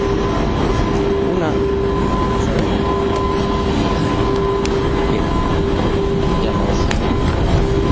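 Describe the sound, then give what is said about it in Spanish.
Inside a moving train carriage, a loud continuous rumbling roar with faint rattling clicks and a steady tonal hum running throughout. “Ya hemos subido al tren”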